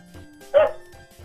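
A single short dog bark, sharp and fairly loud, stands out against faint low thumping sounds before and after it.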